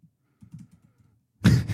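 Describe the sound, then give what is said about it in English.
Typing on a computer keyboard: a few faint, soft taps followed by a couple of louder, sharper clacks close together, with no voices. “I can't type.”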